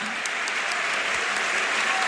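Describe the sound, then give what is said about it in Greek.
Dense, continuous applause rises from the stadium stands during a national-team match, encouraging a player who gets up slowly. The clapping is steady and fairly loud throughout, without distinct breaks. “ακούτε το χειροκρότημα ενθάρρυνσης από την εξέδρα”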